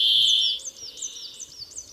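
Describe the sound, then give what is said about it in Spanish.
Brambling call: a sustained high, buzzy note opens, followed by a series of short, rising chirps repeated at a steady pace over faint background hiss. “Una de esas especies invernantes es el pinzón real, o también llamado gorrión siberiano, un bello fringílido de vistosa coloración y silenciosas costumbres invernales, aunque eso sí, se vuelve parlanchín en primavera cuando su trino”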